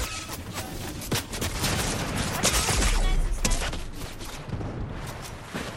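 Gunfire in a video game, with sniper shots among dense, continuous battle noise; a few sharp individual cracks stand out above the steady rumble of shooting.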